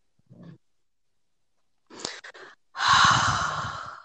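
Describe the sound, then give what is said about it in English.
A person breathes out deeply in one long, loud, airy exhale that fades gradually, preceded by a few faint, short breathy sounds with brief silences between them. “I need you to breathe out Jeff.”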